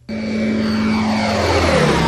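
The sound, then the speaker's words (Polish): Steady engine drone of an ultralight airplane built fully of carbon composite, flying over an airfield. It starts abruptly and stays loud and even, with a sustained low engine tone throughout. “To jest samolot tak zwany ultralekki, w pełnym kombosycie karbonowym. Prędkość przelotowa jakieś 250.”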